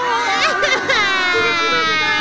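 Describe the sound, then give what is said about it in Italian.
Children whining and crying in high, wavering, drawn-out sobs that continue steadily throughout, with no other sounds clearly standing out. “Su, dai, bambini! Non frignate!”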